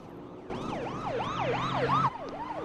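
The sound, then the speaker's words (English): Police car sirens wail as the cars pass on a road, a fast rising-and-falling yelp cycling repeatedly over a low steady hum, loud at first and then cutting sharply to a fainter continuing siren. “Elmo and Felix hurry down the road as police cars roll past them in the opposite direction”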